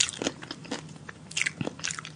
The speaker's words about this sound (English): It's a lot of chewing. That's terrible.